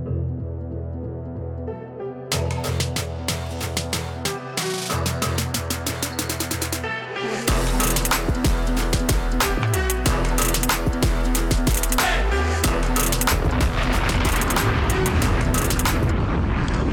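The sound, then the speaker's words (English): Heavy intro theme music for a football show opens sparsely. It then grows louder and fuller from about halfway, with pounding, booming low percussion hits driving a steady beat. “And with that, let's do it with theme music.”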